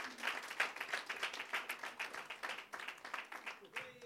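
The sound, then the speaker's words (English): An audience applauds as panel guests walk onto a stage, with sustained clapping that pulses in regular bursts and a few voices mixed in. “So let's give it up for these guys as they come onto stage and join me.”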